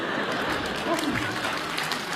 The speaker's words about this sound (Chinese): 全被征服了，来点掌声好吗？哎呦，哎呀，楼上都鼓掌。